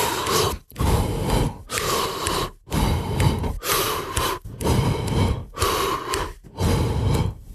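A steady rhythm of heavy, forceful breaths from someone showing a breathing pattern for jump rope double unders, set as a fixed number of double unders per breath. The loud breaths come in regular bursts with short gaps between them.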